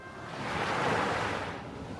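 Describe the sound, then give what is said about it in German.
Ocean waves and wind at sea, heard while sailing on a windy day: a steady, broad rushing wash that swells gently toward the middle and then eases slightly, with no voices. “segeln wir gemeinsam ein wenig übers Meer. Es ist windig.”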